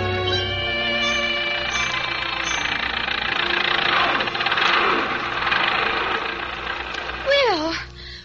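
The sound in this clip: An early automobile's motor runs with a steady, continuous rumble and hum that holds fairly level throughout, with a brief louder swell near the end.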